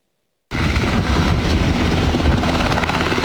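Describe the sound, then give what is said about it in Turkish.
Military gendarmerie helicopter taking off toward steep, roadless highland terrain near Beytüşebap, Şırnak. A loud, steady rotor and engine roar starts abruptly and holds without letup for about three seconds. “Ulaşımın olmadığı dik ve zorlu bölgeye jandarmaya ait askeri helikopter havalandı.”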